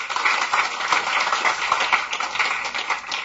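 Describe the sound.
Audience applause welcoming a speaker to a book talk: a continuous patter of many hands clapping at a moderate, fairly even level.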